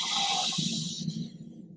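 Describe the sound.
A deep inhale through the nose during a guided breathing exercise: a steady, airy hiss that holds for about a second and then fades away into quiet.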